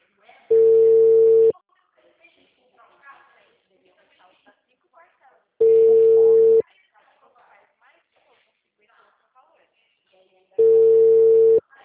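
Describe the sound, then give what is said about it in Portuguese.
A telephone busy signal plays as three steady, loud tone bursts, each about a second long and spaced about five seconds apart, with faint talk in the gaps between them. “Não atendeu, Nath. É a segunda vez que estou ligando. O número está ocupado.”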